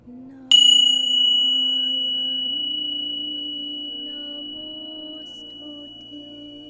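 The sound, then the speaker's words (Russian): A small bell is struck once and rings out as a clear, high, pure tone that slowly fades over several seconds above a faint, steady low hum. “Услышьте звук колокольчика.”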